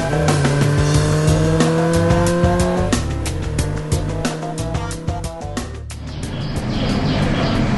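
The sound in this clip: A car speeds off hard, its tires squealing over a revving engine. The loud, tonal whine shifts in pitch several times across the run, with no voices over it.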